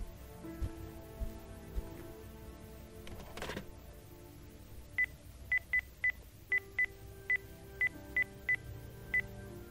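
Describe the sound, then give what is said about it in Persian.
Telephone dialing tones as a call is placed: a quick run of many short, clear beeps at irregular spacing, following a stretch of low background noise. “بذار یه زنگ بهش بزنم.”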